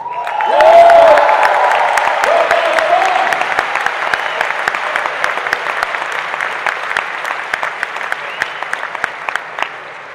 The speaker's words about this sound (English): I want you to feel free to cheer, holler, clap, yell, whatever you feel like.